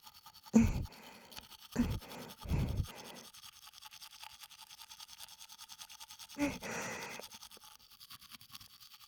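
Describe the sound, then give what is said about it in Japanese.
A cold toothbrush scrubs teeth with a few loud, separate strokes, then a long run of faint, fast, rhythmic bristle scratching. “だから歯ブラシはそのままにしておいたわ。ひんやりとした歯ブラシ、ご堪能あれ。”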